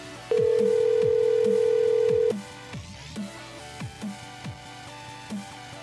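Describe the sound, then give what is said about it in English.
Telephone tone on an outgoing call to someone who keeps picking up and hanging up: one loud, steady beep holding for about two seconds, followed by a softer, regular pulsing pattern. “Now she's just picking up and hanging up. Let's just keep calling her.”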